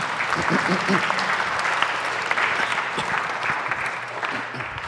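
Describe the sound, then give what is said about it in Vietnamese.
An audience gives a round of applause for a child, a full, continuous rattle of many hands that holds steady for several seconds, with voices briefly audible near the start. “Cảm ơn con. Cho bạn một tràng pháo tay được không?”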